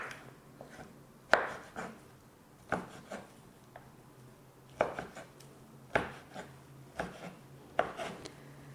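Beans are chopped with a knife in a series of sharp, fairly faint strikes at an uneven pace, with short pauses between groups of cuts and no talk.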